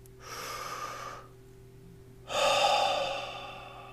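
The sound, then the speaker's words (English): A deep breath in, then a slow breath out: one long airy inhale, a short pause, and a louder, longer exhale, with no talking. “That was short, but the deep breathe in, deep breathe out is incredibly effective at stopping your thought process.”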